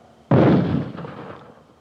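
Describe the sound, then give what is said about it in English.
A mortar fires about 40 feet behind, producing one sudden loud blast that rolls into a long, fading rumble. “that was mortars. They just fired maybe 40 feet in back of me.”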